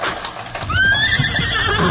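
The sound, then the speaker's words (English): Horses race across the stone floor of a canyon in the dark, a steady, loud clatter of galloping hooves with a long whinny ringing out over the hoofbeats. “They wouldn't race their horses like that on the stone floor of a canyon, especially in the dark.”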